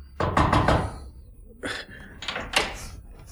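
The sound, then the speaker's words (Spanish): Knuckles rap on a door several times in short uneven groups. Each knock is a sharp, dull thud, and no one speaks. “Subió precipitadamente la escalera, llamó con los nudillos en la puerta”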